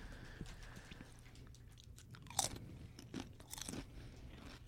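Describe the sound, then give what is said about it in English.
Faint crunching and chewing of thin, crisp potato chips during a tasting. A few soft, crisp bites, one sharper than the rest, sit over a steady low background hum. “They're very potato-y. It's like a two, because it tastes like a regular Lay's. A two. She didn't hear it. Can you hear it?”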